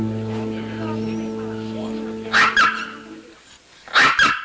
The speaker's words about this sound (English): Now at Rita's apartment, a toy poodle barks at Tom